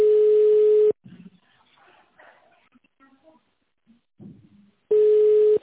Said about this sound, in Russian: Переадресация звонка.